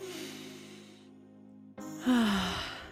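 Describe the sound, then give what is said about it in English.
A breath released as an audible sigh: loud breathy noise with a voiced tone falling in pitch, coming after a steady low tonal hum. “Let's take a breath.”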